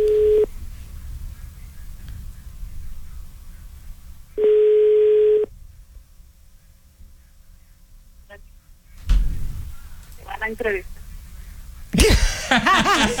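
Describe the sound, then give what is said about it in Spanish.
A telephone ringback tone plays while a call is placed: two steady, low, even tone bursts separated by a quiet gap, followed later by scattered brief noises. “Din, din. Marcando”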